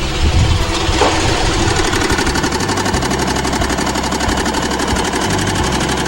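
A sewing machine stitches a garment placket, running continuously with a loud, steady mechanical whir and a fast, even pulsing rhythm throughout. No talk.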